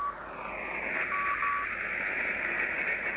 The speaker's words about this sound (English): There's a tone and Morse code. Now I'll try and notch that out.